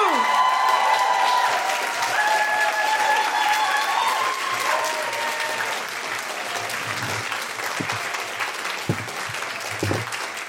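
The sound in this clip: Loud audience applause and crowd noise greet a performer walking onto the stage at a live show, a dense burst of clapping that stays strong before gradually thinning out.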